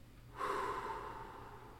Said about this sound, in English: Inhale, peace. Exhale, growth.